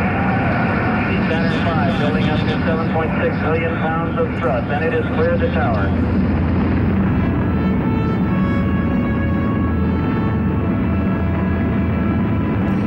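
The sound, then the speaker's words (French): The Saturn V rocket roars at liftoff on Apollo 13, a dense, continuous rumbling roar that fills the whole stretch while a voice talks over it. “Saturne V s'arrache du sol, offrant un spectacle inouï de force et de grandeur. 6800 tonnes de poussée brûlant 2000 litres de propergol en 2 minutes”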